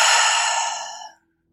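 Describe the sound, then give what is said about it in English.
A single long breath out through the mouth during a seated guided meditation: a breathy exhale that holds steady, then fades away after about a second, followed by silence. “Take a deep breath in through the nose. And deep breath out the mouth.”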